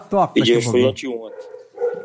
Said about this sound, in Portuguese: Olha o cachorro aí. Olha os cachorros. Olha os cachorros gritando aí.